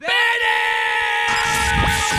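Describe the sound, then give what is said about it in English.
A loud, piercing scream holds a steady high pitch for about two seconds, with rougher noise joining in the second half. “Oh, there's nothing like a good scream in the face to wake you up in the morning.”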